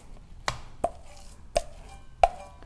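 Four sharp, dry knife chops as minced meat is cut in half by hand, each a short crisp thud spaced unevenly apart, with quiet gaps between them.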